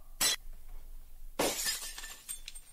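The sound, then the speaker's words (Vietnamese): A century-old enamelled ceramic incense bowl inlaid with mother-of-pearl falls from an altar and shatters on a brick floor. A short sharp crack comes first, then a longer breaking crash with scattered tinkling fragments, fairly faint overall. “Cái bát hương lớn, nghe nó có tuổi đời trên 100 năm, đã rơi xuống nền gạch.”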